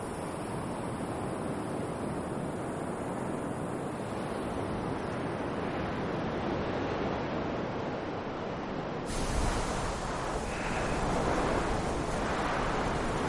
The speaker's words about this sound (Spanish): camina por una pequeña meseta con arena y árboles junto a la playa. Ya es de día, hace mucho viento y sol.